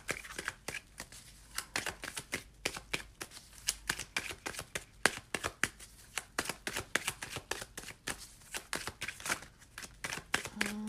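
Tarot cards being shuffled and drawn from the deck. Many crisp, rapid snaps and riffles repeat in an uneven rhythm with short gaps, clear and without talking.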